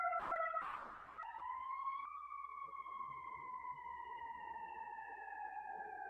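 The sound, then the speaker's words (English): A siren wails steadily in the background, heard outdoors where the person is located, with a sustained tone that steps up early and then slowly sinks in pitch over several seconds. No one speaks. “even as perhaps there is a siren in my background because of where I'm located”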